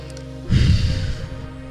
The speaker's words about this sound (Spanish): Respira profundo.